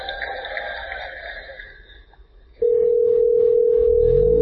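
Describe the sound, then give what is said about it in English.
Telephone dial tone as a call is placed to a hair salon: after some fading tonal sounds, a loud, steady single-pitch tone starts suddenly and holds unbroken. “what you're going to hear is the Google Assistant actually calling a real salon to schedule the appointment for you”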